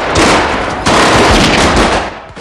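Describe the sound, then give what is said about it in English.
Three men firing guns into a storeroom, a loud, dense and continuous barrage of rapid automatic shots filling the whole stretch, with no talk over it. “Pack and AJ run and hide as the three men open fire on the storeroom.”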